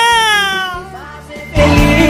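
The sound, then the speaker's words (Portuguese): A human voice imitates a cat's meow with a long, wavering, falling cry, then gives way to a noisier burst, over a steady low rhythmic beat. “Miau, miau, miau, miau, miau, miau, miau, miau, miau, miau, miau.”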